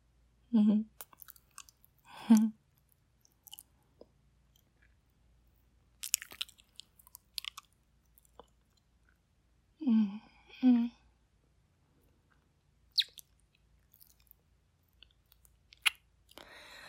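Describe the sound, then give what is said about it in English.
Someone chewing and biting while tasting food, heard as a few faint wet, crunchy bursts spread out between stretches of near silence. “Oh, hang on, let me taste this.”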